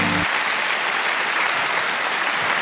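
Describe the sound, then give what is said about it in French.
Loud, dense audience applause at a comedy show, greeting comedians as they come on stage, holding as an even, continuous wash of clapping throughout. “Préparez-vous maintenant à accueillir notre prochain artiste et faites du bruit, où que vous soyez, pour Poulpe et Bérangère Krief.”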